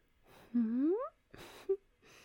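A soft, breathy gasp that turns into a rising voiced moan. Shorter sharp breaths and a brief vocal catch follow, all faint and close.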